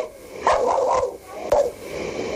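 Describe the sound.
A small dog barks during a caiman sighting. A few short, sharp yaps rise over steady background noise.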